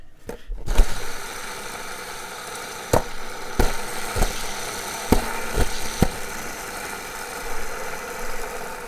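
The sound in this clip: Slime Balls skateboard wheels spin on a Vision Psycho Stick deck with a steady whirring hum. A louder knock comes near the start, and several sharp ticks recur through the spin.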